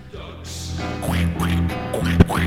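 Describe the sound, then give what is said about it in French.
Duck quacks: a short run of nasal, honking quacks over a steady tonal music bed, growing slightly louder toward the end. “Ducks, ducks. Quack, quack, quack, quack.”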